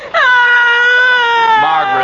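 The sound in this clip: A child wails and cries in a loud, sustained, high, tonal voice that holds a steady pitch for about two seconds.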